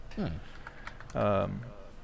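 Computer keyboard typing a web search: a few light, quick key clicks, partly covered by short voiced sounds from a person.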